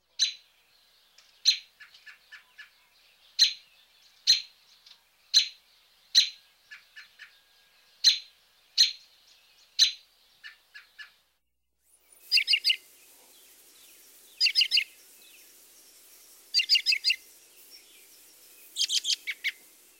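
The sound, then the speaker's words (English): American robin call notes: many sharp, high chirps repeated in a steady, evenly spaced series, followed by a few buzzier clusters of rapid notes, alone without talk. “Here are several more typical robin call notes.”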